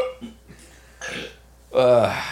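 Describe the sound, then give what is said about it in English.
A hiccup right after an egg is thrown: a short, voiced, gulping sound near the end, following quieter vocal noises. “throws an egg and immediately just hiccups.”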